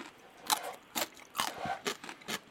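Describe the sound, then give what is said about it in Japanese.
Crisp, faint crunching of smoked pickled daikon eaten with cream cheese, several separate bites in a steady rhythm with no talking. “クリームチーズとこのスモークたくあんはよく合うな、誰が考えたんだろうと思いながら、これ、お酒のつまみに最高の人気ですね。えー、ちょっと召し上がってください。いただきます。”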